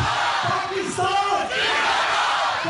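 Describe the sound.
Crowd chanting a patriotic slogan at a Pakistan Day celebration, a dense wall of massed shouting voices that holds steady and loud throughout with brief dips between phrases.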